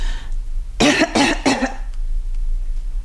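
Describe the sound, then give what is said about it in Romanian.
A patient coughs during a medical examination, giving three short, harsh bursts in quick succession, clearly louder than the low steady background hum, then falling silent. “Tușiți? Încă?”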